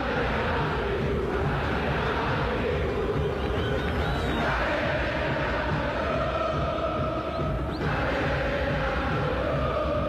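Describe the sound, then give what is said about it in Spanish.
Boca fans roaring and cheering in a football stadium during a match against Recoleta, a dense, steady crowd noise that holds at a loud level throughout without distinct peaks. “se animan los hinchas de Boca, pero hasta ahora no puede con Recoleta. Se levanta el público de Boca, escuchen ustedes.”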